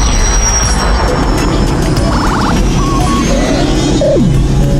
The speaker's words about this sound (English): We're coming in for a landing. Here we are. City of Roses.